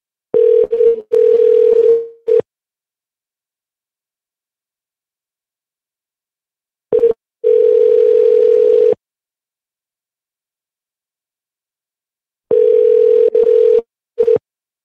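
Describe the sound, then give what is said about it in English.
Telephone ringback tone heard while a call is redialed: a steady, mid-pitched electronic tone in a few separate bursts of uneven length, divided by long silent gaps. “we're definitely going to redial.”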